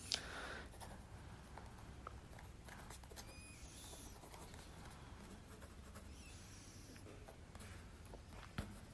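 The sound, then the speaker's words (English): Faint scratching of a pen or pencil writing by hand, a soft continuous scribble with occasional small taps, quiet and without talk. “I'm also just writing the intention so that I don't forget them.”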